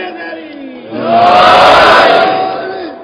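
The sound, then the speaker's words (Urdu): A crowd at a majlis chants a religious slogan in unison. A single voice leads at first, then many voices join in a loud, swelling roar that holds for about two seconds before fading. “نعرہ آخری نعرہ آج کے مجلس کا مل کے.”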